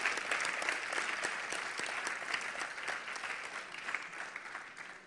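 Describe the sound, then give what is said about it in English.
A church audience gives a round of applause during a service, a dense, even wash of many hands clapping that softens gradually toward the end. “Give your neighbor a big hand clap for hanging in here.”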